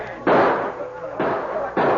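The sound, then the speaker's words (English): Three sharp gunshots ring out as renegades attack a store under siege, each a sudden loud blast followed by a rough, noisy decay, with irregular gaps between them. “One of the renegade shots shattered the glass from a window, and the boy covered his head.”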